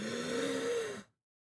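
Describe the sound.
A single deep, voiced sigh as a held breath is let out during a medical check, steady and moderately loud before cutting off into silence.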